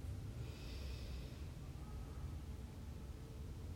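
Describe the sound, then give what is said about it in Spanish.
A deep inhale through the nose during a guided breathing exercise, a faint, steady airy rush of air lasting the whole stretch without a break. “Inhala profundo por nariz.”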